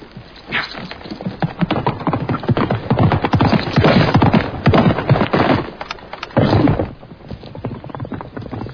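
Horse hooves clip-clop as a rider heads out carrying a bucket, many rapid, hard hoofbeats in a continuous stream with a woody knock, steady and fairly loud throughout with no talking.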